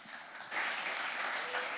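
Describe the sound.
An audience claps for its lead pastor at a church service. The clapping starts soft, swells sharply after about half a second into full, many-handed applause, then stays steady and fairly quiet overall.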